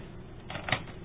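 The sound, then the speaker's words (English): Faint mechanical clicks as record is pressed on tape recorders, two brief clunks a fraction of a second apart over a low hiss. “I'm going to hit record on these tape recorders here.”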